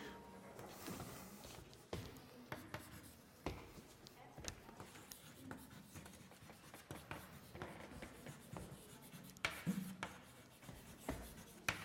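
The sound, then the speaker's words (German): Writing on a board during a mathematics lecture: continuous faint scratching strokes broken by scattered sharper taps and knocks, quiet throughout. “ich schreibe es mal so”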